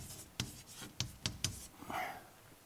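A word written by hand: a few quiet, crisp pen strokes and taps, followed by a softer, longer scratchy stroke, all faint with no talking.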